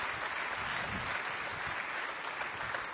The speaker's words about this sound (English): why don't you give our praise and worship team another round of applause